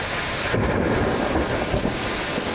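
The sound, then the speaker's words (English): Thunder rolls through an East Coast thunderstorm in Reading, Pennsylvania, over a steady roar of heavy rain, a dense, loud wash of sound that holds without a break. “It was dramatic. Heavy rain, lots of lightning and thunder,”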